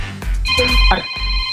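A telephone ringtone signals an incoming call, a steady, bright electronic tone that starts shortly after the opening, accompanied by several dull low thuds.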